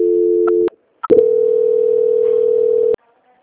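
A telephone line tone during a call-center call transfer: a steady, slightly lower buzzing tone, then a short break with clicks, then a longer continuous mid-pitched tone of nearly two seconds that cuts off abruptly.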